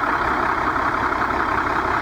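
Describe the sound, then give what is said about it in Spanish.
A bus engine idles with a steady, loud, low rumble and an even mechanical drone that does not change over the short stretch. No one talks over it. “Un relojito, con ese motor, ¿eh?”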